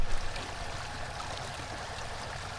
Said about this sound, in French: Eh bien, les moteurs, amis auditeurs, c'est le bruit de l'eau.